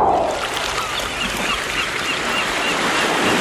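Sea waves wash along a summer seaside shore in a steady, broad, hissing rush that holds evenly throughout.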